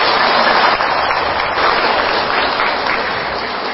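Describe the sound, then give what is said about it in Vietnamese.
An audience applauds at a Vietnamese Buddhist celebration evening held in England. The clapping is dense and steady and eases slightly toward the end. “Xin cho mấy em chặn pháo tay đi.”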